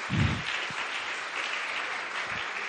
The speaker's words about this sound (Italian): Un bel applauso ragazzi